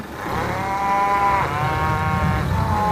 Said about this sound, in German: Und ihr seht jetzt auf der anderen Seite von dem Zaun, da sind jetzt die ganzen, die jungen Kälber.